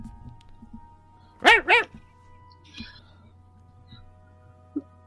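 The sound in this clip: A dog whimpers while smelling a collar: two short, high, rising-and-falling whines close together, then quiet with a low steady hum and a faint knock or two.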